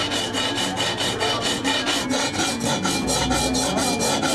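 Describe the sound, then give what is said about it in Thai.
A metal file works a piece by hand with many rapid, evenly spaced rasping strokes. The scraping rhythm stays steady and loud, with no voices. “งานตะไบนี่เป็นงานมือนะคะใช้เวลาประมาณ 2-3 ชั่วโมงต่อ1ชิ้นนะคะ”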